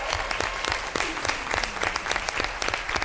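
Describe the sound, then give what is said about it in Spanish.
An audience applauds at a school team competition with dense, steady clapping that stays loud and even from start to finish. “y este ánimo del público”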